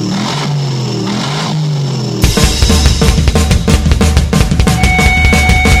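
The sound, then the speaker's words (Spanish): A supercharged 600-horsepower V8 car engine revs hard, bursting in loudly after a quieter opening and pulsing in rapid, throaty surges that stay loud to the end. “el último de los V8, casi nada, muchacho. 8 cilindros, doble cámara. Dile lo del compresor. 600 caballos de potencia en las ruedas.”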